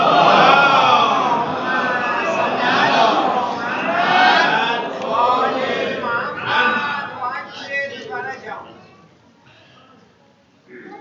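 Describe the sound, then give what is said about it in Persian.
An audience recites salawat aloud together, many voices chanting in unison as one loud, dense chorus that thins out and fades toward the end. “جهت تعجيل در فرج مولای من حضرت صاحب الزمان عنایت کنید متفقا، صلوات بلندی مرحمت بفرمایید.”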